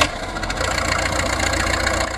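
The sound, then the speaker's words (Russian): Aircraft engines start up on an airfield, producing a loud, steady, rumbling drone that holds throughout without a break. “Летчики на аэродром! Заводим моторы!”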